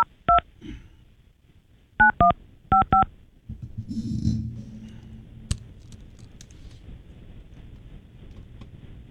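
Telephone keypad tones as a number is dialed: a few short two-tone beeps in quick succession, followed by low rumbling background noise and a single sharp click.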